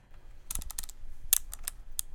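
A radio's pull-out antenna, shaped like a tape measure, is angled with a rapid series of light, sharp mechanical clicks of varying strength over near silence.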